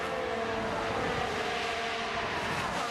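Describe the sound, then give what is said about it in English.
A Ferrari Formula 1 race car driving at the Miami Grand Prix: a loud, high-revving engine roar held steady throughout, with no voices. “Here's the Ferrari going through. Charles Leclerc gets back past George Russell.”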